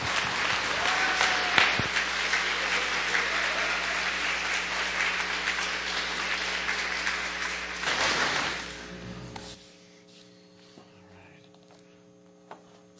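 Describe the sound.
An audience at an evening service at Grace Bible Church applauds to welcome a visiting preacher. Dense, even clapping lasts about nine seconds, then thins out and fades, leaving a low electrical hum.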